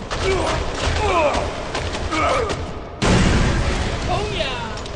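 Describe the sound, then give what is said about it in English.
Gunfire from the video game Kane and Lynch 2: Dog Days: dense, rapid bursts of shots and booms that run continuously, with voices mixed in. “There's been some more shooting. Okay, well, I can hear that.”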